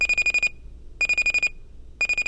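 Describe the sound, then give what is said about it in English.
An alarm clock goes off at 6:15 with a shrill electronic beeping in short bursts of rapid beeps, each burst separated by a brief pause and repeating about once a second. “About 2 hours before you'd actually like to be conscious, the numbers on your alarm clock hit that magical combination 6:15.”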